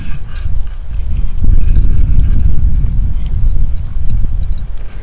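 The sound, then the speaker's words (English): Wind buffets outdoor microphones set up among birch and oak trees, a heavy, steady low rumble with gusty swells that continues for about five seconds with no voices. “because we have quite a little bit of wind, we will see what happens. Wind, of course, doesn't make good recordings.”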